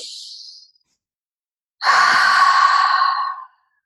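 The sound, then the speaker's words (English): Deep breathing for a relaxation exercise: a short, softer breath in through the nose, a brief silence, then a long, loud exhale through the mouth that holds steady before cutting off. “you'll take a few deep breaths. So I like to take big inhales through my nose and exhale through my mouth.”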